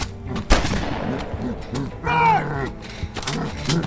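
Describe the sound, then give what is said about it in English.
A gunshot fired point-blank at a charging creature's face: one sharp, loud blast, followed by the creature's low, bellowing cry and a few more scattered thuds. “The thing charged towards Bert, and at the last second, he shot right at its face.”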